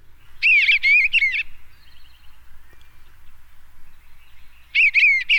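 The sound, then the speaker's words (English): Song of an eastern bluebird: two short bursts of high, warbling whistled phrases separated by a few seconds of near quiet, each burst loud and quickly repeated notes. “This is the song of a very popular bird in our listening area. This is the eastern bluebird. And this is the song.”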